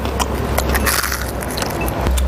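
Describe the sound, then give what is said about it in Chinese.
Crisp crunching as golden, deep-fried rushan cheese is bitten: many dense, crackly snaps that continue steadily and stay fairly loud throughout. “炸至金黄酥脆的乳扇，又脆又香。”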